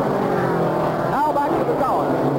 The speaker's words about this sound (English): Troy Ruttman, the winner of this race in 1952, takes the lead as he comes around the southwest turn.